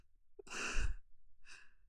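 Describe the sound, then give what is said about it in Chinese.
A soft yawn after eating too much, a breathy half-second exhalation followed by a shorter, fainter breathy puff, quiet and alone. “我打哈欠了，可能是因为刚刚吃太饱的关系吧。”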